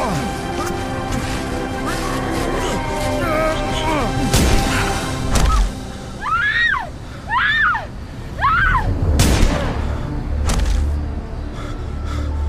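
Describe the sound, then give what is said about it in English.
A struggle and gunshots in an audio drama mugging scene, with a robber's gun going off during a scuffle: a few sharp, loud bangs and thuds, interspersed with strained gasps and cries. “After shooting Thomas and Martha, the thug then turns the gun on Bruce”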